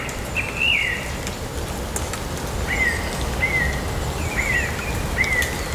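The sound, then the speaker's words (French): Birds sing several short, bright whistled chirps, some in quick pairs, over a steady rain-like hiss. “Effet de miroir entre le chant des êtres vivants, des oiseaux.”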